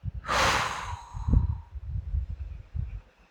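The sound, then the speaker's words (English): A person breathes in deeply during a guided relaxation exercise. One long, airy inhale rises at the start, followed by soft, low breathy sounds. “Breathe in.”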